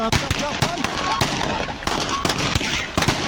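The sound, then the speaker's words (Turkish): Gunfire from a cemetery clash between feuding families at a funeral in Gaziantep: many sharp shots crack out in an irregular rapid string, with voices among them. “Husumetli aileler cenazede karşılaştı, silahlar çekildi. Mezarlık savaş alanına döndü.”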